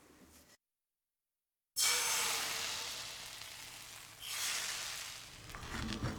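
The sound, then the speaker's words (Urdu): An egg mixture is poured into a hot frying pan and bursts into a loud, hissing sizzle that slowly fades, then surges up again in a second burst. A faint sound and a short silence come before the pour. “آپ یہ آواز سنیں اور انڈے کا قطرہ سفید ہو جائے تو درجہ حرارت ٹھیک ہے. اب فرائنگ پین میں تمام آمیزہ ڈال دیں.”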